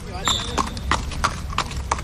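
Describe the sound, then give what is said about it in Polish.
A two-year-old English Thoroughbred horse's hooves strike in a steady, even clip-clop of about six hollow beats at roughly three per second, with talk underneath. “Iluletni to jest koń? To jest 2-letni koń. A jaka to rasa? Pełna krew angielska.”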